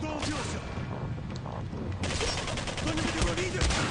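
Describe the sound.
Gunfire in a shooting video game: dense, continuous rapid-fire bursts that crackle steadily for the whole stretch, briefly easing before growing louder again.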